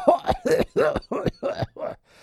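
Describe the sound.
A man imitates an old man's cough with a rapid run of harsh, raspy bursts separated by short gaps. The coughs are fairly loud with no other sound, and they trail off into a faint final rasp.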